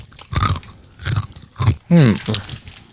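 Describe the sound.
Crunching of tiny, compact cheese snacks being chewed several at a time, a few short, crisp bursts spaced at an even rhythm, with a brief voiced sound near the end.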